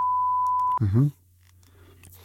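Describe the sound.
Morse-code beeping from an old house: one steady, high-pitched electronic beep lasting under a second, cut off abruptly and followed by a brief burst of voice.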